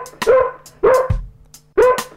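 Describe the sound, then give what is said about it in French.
A small dog barking: three sharp, high-pitched yapping barks, spaced fairly evenly and loud against a quiet background. “J'ai un petit chien au fond du jardin. Ce petit chien est mon grand copain. Et ce petit chien fait.”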